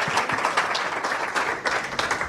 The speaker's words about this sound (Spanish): Y fíjense que están aplaudiendo sin decirles de qué es.